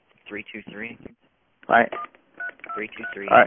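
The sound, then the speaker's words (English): Telephone keypad tones as a phone number is entered: a few short electronic beeps mixed in with a recorded voice and people talking. “The phone number entered is invalid. Please re-enter.”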